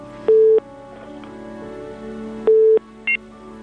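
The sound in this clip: Telephone tones on a failed call: three electronic beeps, two longer and one short, over a steady low line hum.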